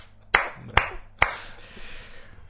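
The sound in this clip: Three sharp hand claps, evenly spaced and loud against a quiet background, with a faint hiss trailing after the last one.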